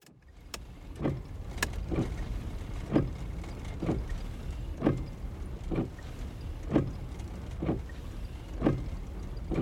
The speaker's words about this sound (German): Es schneit leicht, als ich die kurvige Straße zwischen hochaufragenden Kiefern hinauf zur Hütte fahre.